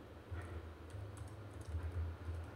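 A computer keyboard clatters as a short Japanese sentence is typed. Quiet clicks arrive in irregular bursts and short runs over a steady low hum, with no voices.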